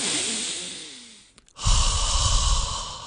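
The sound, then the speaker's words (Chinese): A deep breath: a long, breathy rush that fades away, a brief pause, then a louder, steady rush of air that carries on to the end. “等我教你一个方法可以放松啲啦。深呼吸。”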